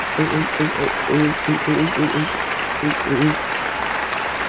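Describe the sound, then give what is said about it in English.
Applause from an audience giving a standing ovation: dense, steady clapping and cheering that holds at an even, loud level throughout, with voices talking over it. “Oh, the audience loves the pun! And it's standing ovation!”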